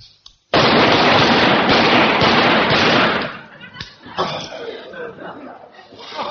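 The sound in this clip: Rapid rifle fire on a shooting range: a loud, dense burst of sharp shots runs together for about three seconds, then gives way to quieter voices and laughter.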